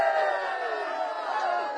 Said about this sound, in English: Yeah, you got a standing ovation there.